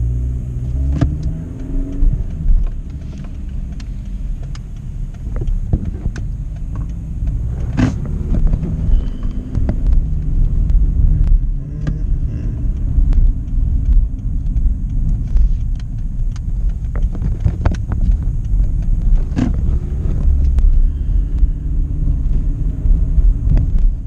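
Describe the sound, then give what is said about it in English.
A car drives around the block after missing a parking spot near a barbershop. Its engine rumbles low and steady beneath road noise, with occasional brief sharp ticks and knocks during the drive. “I think I could have parked in the rear there. Shoot. Okay, let me drive around the block.”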